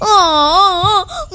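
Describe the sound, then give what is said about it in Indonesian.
A voice imitates the loud, wavering wail of Kebo Iwa, a legendary giant crying for food. One long wobbling cry breaks off, then a brief, shorter sob follows. “Kebo Iwa nangis minta makan banyak.”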